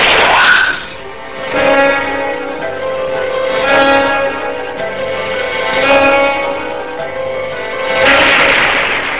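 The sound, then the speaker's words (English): Sci-fi photon torpedo firing: a loud, ringing, metallic synthesized tone that surges and recedes in several rhythmic swells, ending in a brighter, hissing burst. “Photon torpedoes, fire one.”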